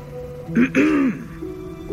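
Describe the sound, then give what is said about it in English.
A person clears their throat once, a short raspy rumble with a voiced catch, followed by a faint background hiss. “A throat cleared.”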